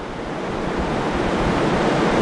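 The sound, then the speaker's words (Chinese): A tidal bore surges across mudflats toward an embankment. It makes a steady, dense rushing roar like heavy surf that builds slightly in loudness, with no voices. “现在可以看到部分潮水的先头部队已经漫上了滩涂，”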